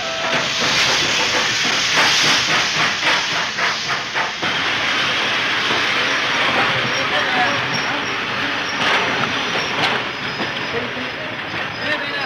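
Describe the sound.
A steam train at a railway station gives off a loud, unbroken hiss of escaping steam, a broad rushing noise that holds steady throughout with faint pulsing underneath.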